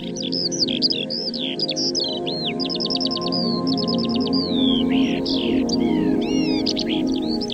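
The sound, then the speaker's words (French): A Eurasian skylark sings a rapid, unbroken stream of high chirps, trills and warbles, steady throughout over a low background rumble. “Phrases qui, une fois traduites, vont nous donner plein de précisions sur notre alouette des champs. Écoutons-la.”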